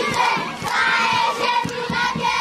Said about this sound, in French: C'est avec cet accueil chaleureux des écoliers au rythme des fanfares que s'est déroulée cette campagne de sensibilisation sur les retours des enfants à l'école dans la sous-division éducationnelle Rutshuru 1.